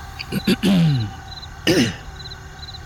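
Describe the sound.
Rough, guttural throat clearing in two bursts, the first longer and falling in pitch, the second short, over a quiet background with faint repeating high chirps.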